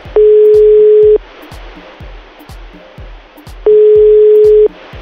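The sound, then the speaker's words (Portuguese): A telephone call rings out after dialing: two long, steady mid-pitched tones a few seconds apart, over constant rushing noise and a regular low thumping. “Então vamos ligar pra ela.”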